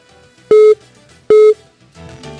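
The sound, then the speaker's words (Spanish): A telephone line sounds a call-waiting tone: two short, loud, identical mid-pitched beeps about a second apart over faint line noise. “Es que me entró ahí otra llamada y el ruido es impresionante.”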